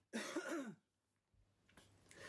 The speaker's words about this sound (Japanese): ちょっと咳していい。